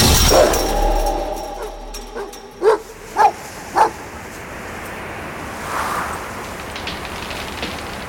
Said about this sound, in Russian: Кладет руки на сетку забора, лает собака.